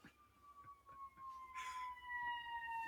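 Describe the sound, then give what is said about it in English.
An emergency siren passes outside, its wailing tone drifting slowly downward in pitch and growing a little louder toward the end, faint overall with no talk over it. “Let's let that siren pass you. This is going to be the one thing you have to edit out of this that's episode.”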